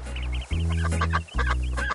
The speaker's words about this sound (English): There's a duck. I will call him.